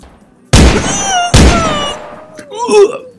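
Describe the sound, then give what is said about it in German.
Two loud, sharp gunshots from a loaded weapon in quick succession, each with a ringing tail, followed by a short voice. “Also, die war doch nett und die war doch hübsch und warum muss man die denn jetzt erschießen?”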